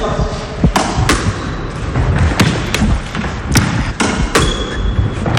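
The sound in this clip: A ball is struck hard during a racket game, several sharp, cracking impacts spaced irregularly, with people talking between the hits.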